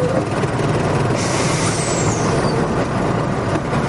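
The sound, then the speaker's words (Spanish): Bus maneuvering: a steady, broad engine rumble, with a loud air-brake hiss that bursts in partway through and slowly fades, a thin descending whistle gliding down across it. “Todos observan las maniobras del autobús.”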